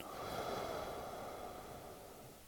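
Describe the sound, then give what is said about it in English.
A single slow, soft inhalation during a guided meditation, a faint airy rush of breath drawn in through the nose that gradually fades toward the end. “I breathe in, I am grateful.”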